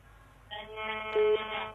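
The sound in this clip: Telephone ringing for an incoming call: a steady, moderately loud electronic ring tone starts about half a second in and holds to the end, with no talk over it.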